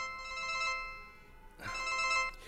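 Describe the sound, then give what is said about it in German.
Telephone ringing in an apartment building: two electronic ring bursts with bright steady tones, separated by a short gap, fairly soft and alone without talk. “Sagen Sie mal, wollen Sie nicht rangehen? Vielleicht ist es ausnahmsweise ja mal dienstlich.”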